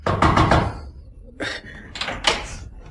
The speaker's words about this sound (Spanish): Subió precipitadamente la escalera, llamó con los nudillos a la puerta y...